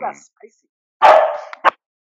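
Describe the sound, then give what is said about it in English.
A dog barks while people record a conversation: one long, harsh bark that trails off, followed quickly by a short, sharp yip. “I need to quiet that dog or mute a mic.”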